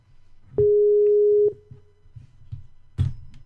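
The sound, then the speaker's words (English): Ringing tone of an outgoing internet call placed from a computer: one steady, clear tone lasting about a second, then a short fading tail, followed by faint low clicks and a brief soft burst near the end. No one talks. “I'm just going to hit the call button. See what happens.”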